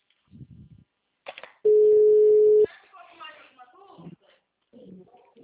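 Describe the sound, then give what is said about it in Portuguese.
A single steady beep of about one second marks a dropped phone call. Faint voices talk before and after it. “a ligação tinha caído”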